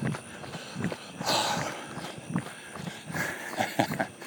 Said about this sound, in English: I'm jogging a downhill right now.